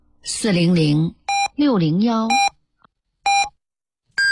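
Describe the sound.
Telephone keypad tones sound as four short, bright electronic beeps spaced by pauses, with a person speaking between the first two.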